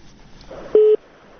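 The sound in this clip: A telephone line gives a single short, steady mid-pitched beep as the call is cut off, standing out against a faint background hiss.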